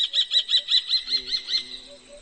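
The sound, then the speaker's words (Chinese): A kestrel calls while circling a rocky cliff face in search of a nesting site: a rapid, evenly spaced series of shrill, high-pitched notes that slowly fade toward the end, with no voices. “一只茶隼四处盘旋，在峭壁表面寻找筑巢的地点。”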